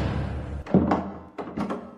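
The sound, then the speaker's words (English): A door bolt is shot home as someone locks the door, giving a few dull wooden clunks and knocks: one firmer thud, then a short run of quicker taps, over a low steady background. “He's locking the door.”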